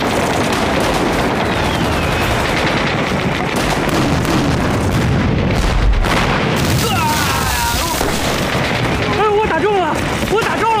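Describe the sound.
Artillery cannon fire in a battle makes a heavy, continuous barrage of loud booms and rumbling blasts. Voices call out over the din toward the end.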